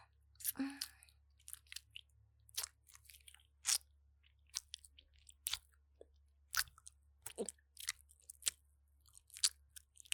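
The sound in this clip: Someone eats and chews food, making many faint, irregular wet crunches and mouth clicks with short quiet gaps between them. No other sound is heard.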